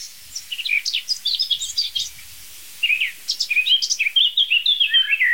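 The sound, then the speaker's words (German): A blackbird sings from a free-standing oak tree, pouring out many rapid, varied whistled phrases in two lively bursts separated by a short pause, clear and bright above a quiet background. “der über uns rauschenden Eiche, eine schöne freistehende Eiche, gibt sich die Amsel von ihrer virtuosesten Seite.”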